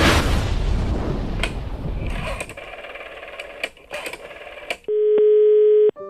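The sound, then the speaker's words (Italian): A telephone dials a number on another continent: a rushing hiss fades into a few sharp clicks, then a steady, single-pitched line tone sounds loudly for about a second before cutting off. “dice a De Palma di usare il telefono della produzione per chiamarlo. È il numero di un altro continente.”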